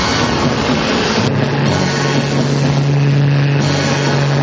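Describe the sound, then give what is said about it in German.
Low-flying airplanes roar overhead while spraying gas over troops. A steady, loud engine drone fills the whole clip, and a low humming tone joins it about a second in. “Die Flugzeuge versprühen ihr Gas und wie gefällt stürzen ganze Kompanien zu Boden. Jeder, über dessen Kopf die Flugzeuge hinwegdonnern.”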